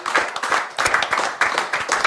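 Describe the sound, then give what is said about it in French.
An audience applauds a guest at a live show in Cannes, a burst of clapping that swells and eases in a few uneven waves, with faint voices mixed in. “En tout cas, on te remercie, Henri, on peut l'applaudir.”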